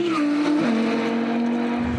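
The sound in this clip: Loud, continuous engine roar from a naturally aspirated car on a race circuit, reaching over 225 km/h on the straight; the engine tone drops in pitch once partway through, then holds steady.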